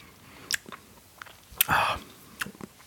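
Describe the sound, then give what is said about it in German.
A sip of sour beer is taken through its foam: a few faint lip clicks, then a short, airy slurp, followed by quiet mouth sounds. No one speaks. “Ich nehme jetzt mal einen Schluck durch den Schaum.”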